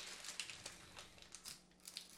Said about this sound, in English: the inside bag is upside down this time around. Oh, dear. That's okay. I'm just going to... Tear it.